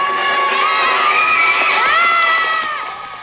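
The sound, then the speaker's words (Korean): Children cheering and shouting as a performer in a cat costume climbs a rope to begin an aerial act; a dense, high crowd of young voices holds steady for about three seconds, then eases off slightly at the end. “아이들의 환호는 그치질 않습니다.”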